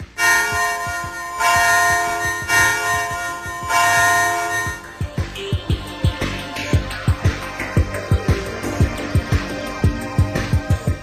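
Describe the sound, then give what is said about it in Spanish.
A bell rings, first in sustained, pulsing metallic tones, then in a fast, even series of sharp strikes that continues to the end. “La habrás oído sonar. Piensa, medita, recuerda. ¿Qué instrumento musical no tiene más que una cuerda? La campana.”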